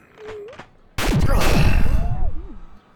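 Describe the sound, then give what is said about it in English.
Gunshots erupt abruptly after a brief spoken phrase, a loud, dense burst of fire lasting about a second and a half, with voices heard over it. “How is he still alive? Shoot him again.”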